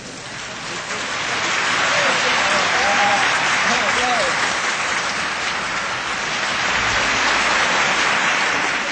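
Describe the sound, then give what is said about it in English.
Audience applause passed around a room: dense, steady clapping that swells over the first two seconds, then holds loud and continuous to the end. “you stop clapping and you start, and you can move the applause all the way around the room, thereby creating noise.”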